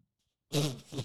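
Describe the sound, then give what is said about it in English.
A fart-like burp from a hungover person: one guttural, voiced rasp lasting about half a second, fairly loud and rough, with no talk over it. “Sorry. It was a burp. That was a fart burp.”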